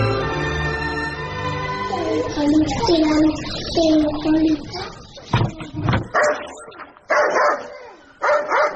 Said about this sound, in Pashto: دا سپی دې در وګرځوه چې ومې نه داړي